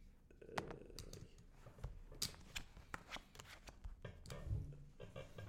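Playing cards dealt during a poker game: a faint run of quick flicks, snaps and soft slaps at irregular intervals, with no voices over them.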